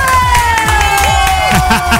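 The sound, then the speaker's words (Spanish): A live show audience cheers and shouts as a presenter is welcomed on stage, with loud, lively voices rising and falling over scattered clapping and a sustained high tone running through. “Hermanos, hemos llegado aquí para aplaudir. ¡Aplausos!”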